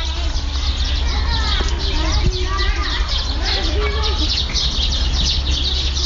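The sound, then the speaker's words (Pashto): Children playing near an old, half-ruined historic fort, their high, lively calls and shouts coming and going over a constant background hum, with birds chirping among them. “له کلا سره نږدې ماشومان په لوبو بوخت دي.”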